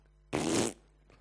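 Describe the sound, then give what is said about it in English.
A toy plays a fart sound effect through a speaker in a church: a single buzzy, blatting burst lasting about half a second, loud against a quiet background. “I don't know if I could say pass gas or fart in the church, but I did.”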